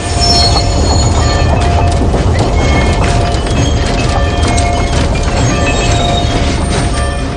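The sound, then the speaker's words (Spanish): A train in a 2007 Western slowly brakes to a stop beside a station house, its wheels squealing with sustained high tones over a loud, continuous rumble of cars that lasts the whole clip. “Poco a poco, el tren se detiene junto a la caseta de la estación.”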